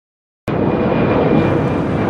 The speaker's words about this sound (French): Nous venons bien d'atterrir à Rome et la température extérieure est de 16 degrés.